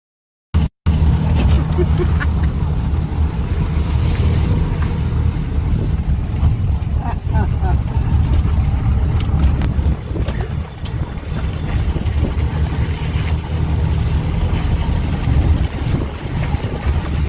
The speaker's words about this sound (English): So you can see that we were driving around on these little three-wheeled vehicles. They are called, affectionately known as tuk-tuks.